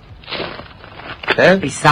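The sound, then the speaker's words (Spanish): Footsteps crunch on frozen, hardened snow as people walk uphill at a mountain activity centre, a few crisp, gritty crunches spaced irregularly, with voices talking near the end. “Pisando la nieve. Exactamente, está algo congeladita, pero va a ir aflojando en el transcurso del día.”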